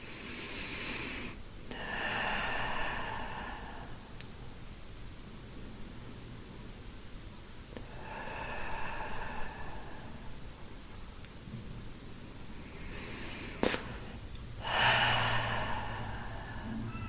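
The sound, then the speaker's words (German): A few slow, breathy inhales and exhales during a guided meditation, soft airy rushes separated by long quiet gaps, with one faint click before the last breath and no speech. “Und dann atme noch mal ein paar Mal ein und aus.”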